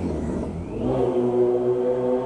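A car driving past in a neighborhood, its engine swelling from a low rumble into a steady mid-pitched hum that stays fairly loud through the end, with no voices.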